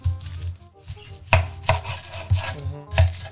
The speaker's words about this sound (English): I'm slicing these onions a little bit too thick